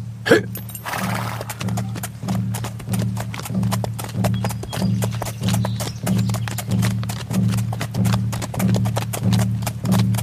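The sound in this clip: Horses' hooves clip-clop as riders set off toward a pueblo, a steady, even rhythm of many low, hollow beats that keeps on at a constant pace from start to finish.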